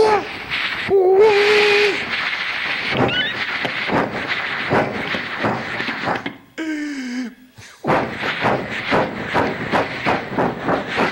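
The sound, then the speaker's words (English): A human voice imitates a locomotive: hooting, whistle-like tones open into steady, rhythmic chuffing bursts, broken by a short pause with a gliding tone before the fast chugging resumes. “Give me one last little piece of anything. A locomotive, maybe. Locomotive.”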